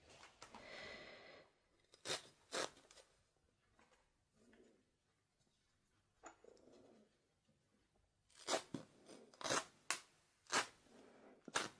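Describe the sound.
Scissors snip through material during a nurse medical-care role-play: faint, crisp cuts, two early snips, then a quicker run of several more near the end, with soft rustling handling at the start.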